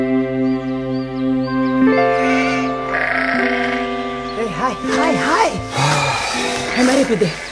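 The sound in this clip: Sheep bleat in a flock being driven out to graze in early March, with several wavering bleats in the second half over steady, sustained musical tones.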